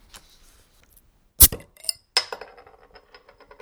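Beer bottles being uncapped: a few sharp metallic pops and clinks with small glassy ticks and light rattles trailing after, no voices.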